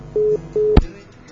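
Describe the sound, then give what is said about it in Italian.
Two short, steady, low beeps of a telephone ringing tone sound in even succession. A sharp click follows as the line is picked up. “14 persone che stanno ascoltando gli squilli.”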